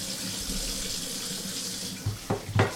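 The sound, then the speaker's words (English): A running water tap as hands sticky with barley malt syrup are rinsed under it: a steady hiss of flowing water, then a few sharper splashes near the end. “I need to rinse my hands.”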